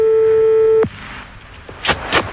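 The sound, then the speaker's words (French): A steady telephone dial tone hums on the line, then cuts off abruptly, followed by quiet line noise and two brief, scratchy bursts as a number is dialed. “fais le numéro tout de suite.”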